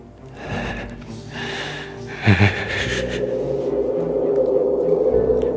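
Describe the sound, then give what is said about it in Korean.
A groan comes from behind on a rooftop: a few breathy sniffs and gasps lead into a sustained low moaning tone that drones steadily to the end. “그때 뒤에서 신음소리가 들렸다.”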